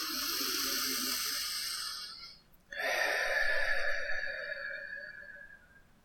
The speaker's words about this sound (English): We're going to begin by taking a deep breath in through the nose and out through the mouth.